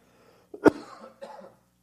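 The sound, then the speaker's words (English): A person with a lingering cough coughs once sharply and loudly, followed by a softer, shorter second burst, then silence; no talking. “still struggling with a little bit of that cough, so I'll try to turn it off whenever I can, just so it's not in your ears.”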